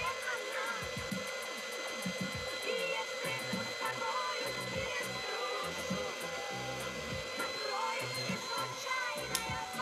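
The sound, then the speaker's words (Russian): A hair dryer blowing while hair is styled and lifted at the roots: a continuous whirring hiss with a steady tonal whine, broken by faint rustling and handling noises. “Оля красиво укладывает волосы феном, придавая объем и поднимая их у корней.”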